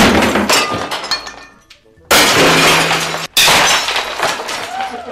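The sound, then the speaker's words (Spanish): Plates, glassware and old furniture being smashed in a rage room: loud crashing and shattering in a few dense bursts, with a brief near-silent gap between the first and second burst and a quick break before the last. “Y entre las cosas a destrozar se encuentran platos, vajilla en general, muebles viejos, mesas, objetos de cristal y otras cosas. Así suena la habitación de la rabia.”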